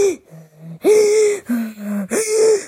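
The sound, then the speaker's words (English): A voice imitates panicked gasping breathing: several loud, voiced gasps in quick succession, each a short sharp intake with a strained, breathy tone, and no other sound. “And my breathing was like,”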